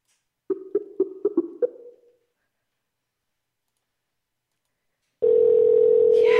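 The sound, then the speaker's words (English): A telephone ring tone. A quick series of sharp clicks comes first, then a long silence, then a steady, loud electronic buzz that begins near the end. “We got a phone ring, you guys.”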